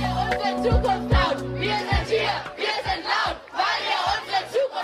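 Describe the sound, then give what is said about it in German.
Fridays for Future climate protesters chanting in Berlin's government district, loud rhythmic call-style shouts from a large crowd, punctuated by several low thumping beats. “So klang das vor über 5 Jahren im Berliner Regierungsviertel. Die Fridays for Future-Bewegung verschaffte sich lautstark Gehör und damit jede Menge Aufmerksamkeit.”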